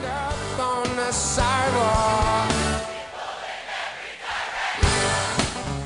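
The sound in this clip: Live concert music before a crowd of about 100,000 in Central Park, with a singing voice and a full band sounding loud and sustained, dipping briefly near the middle before surging again.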